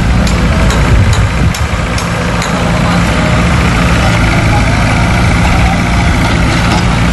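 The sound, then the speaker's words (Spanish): Construction machinery working at a port where new spaces are being built: a loud, steady, low engine rumble with broad mechanical noise and a few faint clicks, continuing unchanged throughout. “Sonaban este sonido de las obras porque se están construyendo allí también nuevos espacios para poder”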